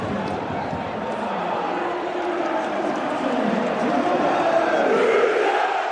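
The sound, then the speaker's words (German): A football stadium crowd roars after a Rot-Weiß Essen goal from a free kick, a dense, continuous wall of cheering and shouting that holds loud throughout and swells slightly toward the end. “Hier ist Ade alles hochgeflogen nach einem Freistoß für Rot-Weiß Essen und dem Tor von Torben Müsel. Mal kurz reinhören. Ja, da macht das Stadion genau die Pause.”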